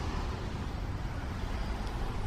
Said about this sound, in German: Oh, wir fahren jetzt hier zwischen zwei Autos eng durch